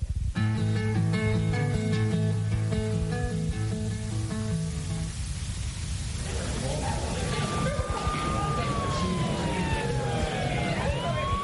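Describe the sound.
An emergency vehicle siren wails over a rumble of traffic in the second half, its fairly faint tone sweeping up and down. Before it comes a stretch of steady, stepped electronic tones.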